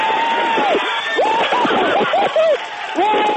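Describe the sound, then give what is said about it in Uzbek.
NASA engineers and scientists in a California laboratory cheer and clap at the Curiosity rover's Mars landing, excited shouts and whoops rising over continuous applause, with voices breaking through throughout. “Kaliforniyadagi NASA laboratoriyasida bo'lgan muhandis va olimlar Mars sayyorasidan mujdani qichqiriq va qarsaklar bilan kutib olishdi.”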